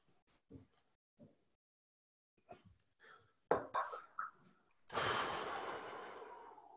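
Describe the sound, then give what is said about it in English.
A big breath: a long, loud, rushing exhale of air that starts sharply and slowly fades, coming after a few faint, short sounds and clicks. “Big breath.”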